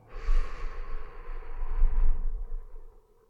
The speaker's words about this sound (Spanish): Y tomamos unas 3 o 4 respiraciones de limpieza, inhalando por la nariz, exhalando por la boca.